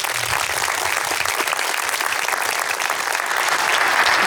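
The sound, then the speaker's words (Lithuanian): Audience applause welcoming a guest, a dense, steady wash of clapping that holds at an even, loud level for about four seconds and swells slightly near the end, with no voices over it. “Pasitikime plojimais.”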